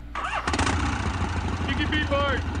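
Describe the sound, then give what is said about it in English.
A motorcycle engine starts up in a video game: a sharp start at about half a second, then a steady, rumbling engine tone that carries on to the end. “Okay, I just pressed the enter key to start the bike again.”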